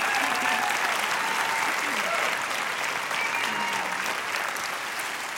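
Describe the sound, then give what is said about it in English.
A concert audience applauds a background vocalist with steady, dense clapping that holds at an even loudness throughout. “give it up for Ellen on background vocals”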